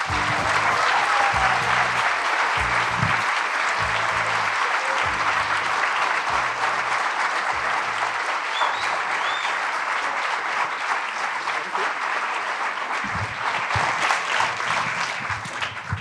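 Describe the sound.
An audience applauds film director Tom Hooper as he is welcomed before a screening of his film. The sustained, even clapping continues for around sixteen seconds and thins slightly at the end, with occasional low thumps underneath.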